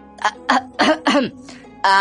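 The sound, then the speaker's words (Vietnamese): Heavy coughing from an old man caught out: a few rough, loud, voiced hacking bursts in quick succession, heard on their own without talk. “Lăng Hùng bị bóc mẽ, ho sổ sụ.”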